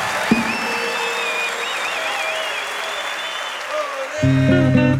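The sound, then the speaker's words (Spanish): Loud audience applause for an Argentine folk musician, a steady, dense roar of clapping for several seconds, with music coming in near the end. “Fuertes aplausos para el Chango Pazúcar.”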